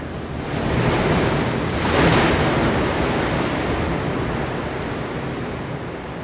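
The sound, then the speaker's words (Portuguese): Ocean waves crash against rocks in a continuous, loud, hissing roar mixed with wind noise, swelling around the middle before settling back to a steady wash. “uma coisa que eu acho foda na natureza é quando as ondas batem nas pedras”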